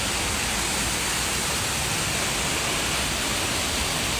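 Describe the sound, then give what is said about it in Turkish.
Heavy, sudden downpour on Istanbul streets as roads flood, a steady, dense, even hiss of rain running unbroken throughout with no voices. “Mega kentte sağanak aniden bastırdı, yollar kısa sürede göle döndü.”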